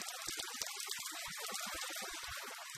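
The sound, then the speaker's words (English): Running, splashing water as refugees wash their hands at a makeshift sink, a dense steady rush filled with many small irregular splashes and drips, with no voices. “The newcomers make their way towards a makeshift sink where they wash their hands before they begin the registration process.”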